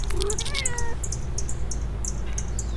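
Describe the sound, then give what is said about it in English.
A black cat that has just come out of the bushes meows in a few short, high-pitched calls near the start, then goes quiet. Faint high chirps continue against a steady low background hum. “Oh, I hear a kitty. A perfect black cat just came out of the bushes and let us pet it. Say something, little kitty.”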